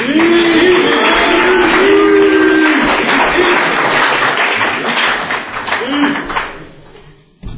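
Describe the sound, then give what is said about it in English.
Audience applause welcoming a speaker at a San Clemente recovery meeting: dense, loud clapping that holds for several seconds, then tapers off toward the end. “Okay, let's give a warm San Clemente welcome to tonight's 40-minute speaker, Eric B. from San Clemente.”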